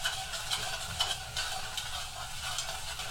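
Butter and brown sugar melt together in a pan while being stirred, giving a faint, steady sizzle with soft stirring scrapes throughout and no talk.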